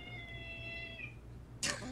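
A cat meows beside its owner in a video game. A short, bright cry breaks out near the end over a low steady hum, after faint sustained tones.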